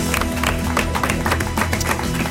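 Studio audience applause and cheering greet a guest: a dense, continuous wash of many hands clapping that stays loud and even from start to finish.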